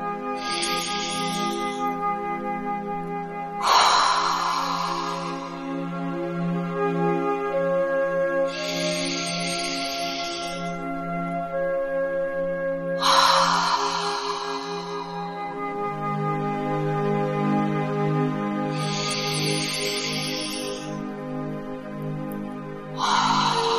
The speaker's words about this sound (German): Und nimm dir jetzt drei tiefe Atemzüge durch die Nase ein und durch den Mund wieder aus.